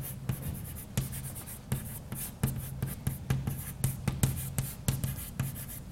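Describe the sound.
Handwriting by hand while writing out a sum of index combinations in a differential geometry explanation: many quick scratching strokes and light taps in an irregular rhythm, fairly faint, with no talk.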